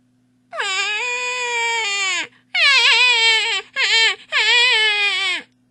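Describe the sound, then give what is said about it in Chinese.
A voice imitates a hungry piglet crying with four drawn-out, wavering wails in a high, whining pitch, separated by brief gaps, over a faint steady hum. “小小猪哭了，肚子饿了。”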